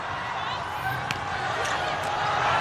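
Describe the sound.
Light ticks of a table tennis ball being served during a match involving China's team: a few faint, sharp taps sit under steady, dense crowd noise.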